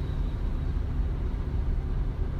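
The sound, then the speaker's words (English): Street cleaner vehicle rumbling past beside a parked car, a fairly faint, steady low engine drone with a slight fluctuating grind and no voices. “Street cleaners, they'll just make a shit ton of noise next to your car. Sorry, and it'll fuck up your audio.”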